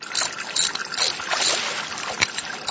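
Water splashing and trickling while a father makes a small repair on a household water meter: a continuous sloshing, hissing wash of water at an even, moderate level.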